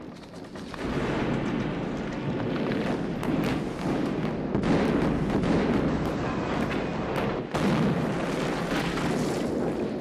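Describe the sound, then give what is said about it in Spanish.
An artillery bombardment at the Battle of Verdun blasts a mountain apart, making a continuous heavy roar of explosions. A few sharp new blasts punch through the rumble along the way, and no voices are heard. “Hombre Muerto, La montaña explota ante sus ojos.”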